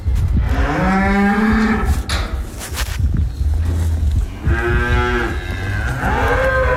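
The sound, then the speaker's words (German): Cows moo loudly as they are brought in from the pasture into the barn, giving several low, drawn-out calls with pauses between them. “Mit im Stall innen. Das heisst, die Aufnahme war eigentlich, ich bin gerade Kühe von der Weide reinholen.”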